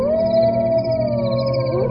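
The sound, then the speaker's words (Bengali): Jackals howl from a nearby bush: a loud, drawn-out tonal wail holds steady and sags gently in pitch, with a second rising call breaking in near the close over a low rumbling background. “ঠিক এমন সময় আশেপাশের কোনো এক ঝোপের থেকে শেয়ালরা চিৎকার করে উঠল।”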